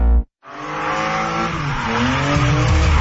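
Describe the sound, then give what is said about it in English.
Race cars skid and squeal their tires during a NASCAR Canada event on the stadium circuit at Calabogie Motorsports Park. After a brief burst and a short gap, a loud, continuous roar of engines and tires follows, wavering in pitch throughout with no talk. “NASCAR Canada takes over Calabogie Motorsports Park this Saturday and Sunday. Experience wall-to-wall racing, high-speed action, and non-stop excitement on their stadium circuit.”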